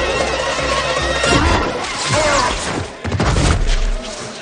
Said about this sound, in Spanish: Sherlock de nuevo ataca con su arma y lo hace volar hacia el interior de la nave cayendo al suelo.